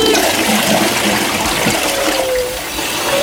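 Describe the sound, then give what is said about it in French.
Toilet flush: loud, continuous rushing and gurgling water that fills the whole clip and eases off slightly near the end. “Bon, tire la chasse.”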